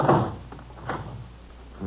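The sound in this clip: A door is shut and locked, heard as a few faint, muffled thuds and clunks spaced apart, with low background hiss between them.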